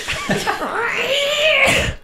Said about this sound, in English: what are you doing to that cat?